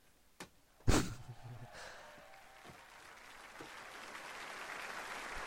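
Hand claps at an evening meeting: a faint clap, then one sharp, loud clap, followed by a quieter wash of noise.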